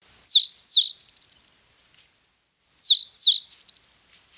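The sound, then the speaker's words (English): Spotted towhee calls come as two matching phrases separated by a pause. Each phrase is two sharp, high chirps followed by a rapid, buzzy trill. The calls are clear and alone. “That was the sound of my focal species for the next 2 months, the spotted towhee.”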